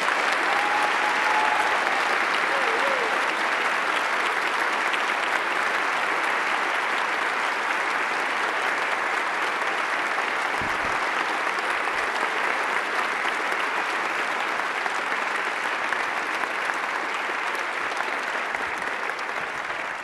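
A church audience gives a long, sustained round of applause welcoming three visiting guests, dense clapping that stays steady and even throughout and eases slightly toward the end.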